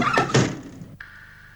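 A window is opened for the first time: two quick rattling knocks come close together, then a faint sharp click, after which only a quiet steady hum remains.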